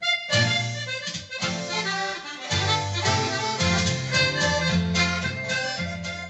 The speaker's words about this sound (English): That is the sound of an accordion from what's thought to be one of the world's largest private collections of the instrument.